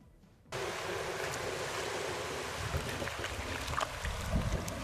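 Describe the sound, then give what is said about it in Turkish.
Water on Eğirdir Lake with a boat and waves: a steady, dense rushing wash that starts abruptly after half a second of near silence and keeps an even loudness throughout. “Eğirdir Gölü.”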